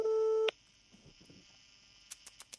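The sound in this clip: A telephone tone sounds while a call is being placed: a steady electronic tone for about half a second, then a quiet gap followed by four short, sharp clicking beeps.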